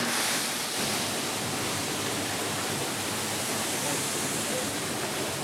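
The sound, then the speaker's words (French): Water rushes at the dishwashing station of a school canteen kitchen, a steady, loud hiss that runs without pause from start to end. “Vous allez découvrir les bruits de plonge dans toute l'équipe.”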